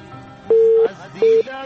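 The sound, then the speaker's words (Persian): A telephone busy signal after a call to a call-in program is cut off: two steady mid-pitched tone bursts, the first longer than the second, separated by a short gap over faint background hiss. “تماس کشمنجان قطع شد”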